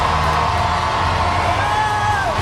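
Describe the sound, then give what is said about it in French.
A huge crowd of about 300,000 people cheers in the streets of Paris. It makes a steady, dense, loud roar with whoops, and a thin whistling tone falls away near the end. “Pendant quelques secondes, sur 2,5 km, il passera devant cette foule en délire qui avoisine les 300 000 personnes dans les rues de Paris.”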